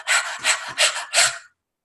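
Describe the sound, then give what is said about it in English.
A person demonstrates nervous, rapid chest breathing with four quick, raspy breaths in an even rhythm, heard alone with no talk. “When we become nervous, we subconsciously change it to chest breathe. And we start going,”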